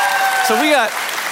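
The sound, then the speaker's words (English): Church audience applauding during a sermon, a loud, steady wash of clapping throughout, with a voice rising briefly over it in the middle. “so clearly we have a church that needs to work on our priorities, just based on the round of applause”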